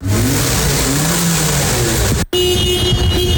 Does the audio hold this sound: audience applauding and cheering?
no